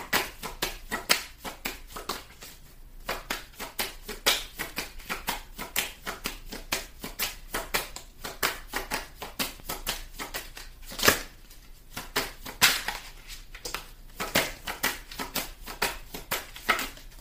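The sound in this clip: Tarot cards being shuffled in many rapid bursts of crisp riffling and slapping clicks, fairly faint and steady throughout, with no talk.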